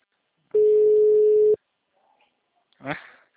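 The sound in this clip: A telephone line tone sounds while a call is being placed: one steady, mid-pitched beep lasting about a second, then near silence and a brief faint sound.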